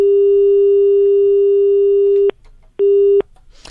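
Telephone busy tone from an unanswered call: a steady, mid-pitched electronic tone sounds in one long burst, then stops briefly and returns as a shorter burst, with no talking.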